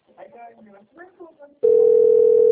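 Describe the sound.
The ringing tone of an outgoing telephone call, a steady loud single-pitched tone that starts abruptly after a person has been speaking.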